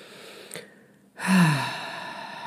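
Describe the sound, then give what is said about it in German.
A deep breath in and out during a guided relaxation with closed eyes. A faint, brief intake comes first, then one full, sighing exhale that starts loud and slowly tapers off. No speech. “schließe deine Augen und atme ein paar Mal tief ein und aus.”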